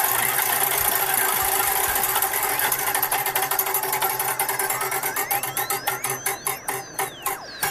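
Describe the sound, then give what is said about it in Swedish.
A prize wheel spun to pick an amusement ride, clicking rapidly against its pointer. The ticks slow and spread out toward the end while a whistling tone rises and falls over them. “ska vi snurra på hjulet? Får vi se vad ni ska åka då tillsammans?”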